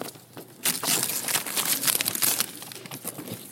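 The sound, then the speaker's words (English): A gift is carefully unwrapped and taken out of its box: paper crinkles and crackles in a dense, busy run, loudest in the middle and easing toward the end. “I'm taking much more care in unwrapping this than I normally do. Just want you to know. If I'd never taken this out of the box when I was a kid,”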